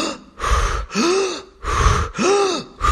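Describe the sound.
Deep breathing exercise with loud, forceful breaths drawn in and pushed out: about four long, airy breaths in a steady rhythm with short gaps. Some carry a faint voiced, groan-like tone.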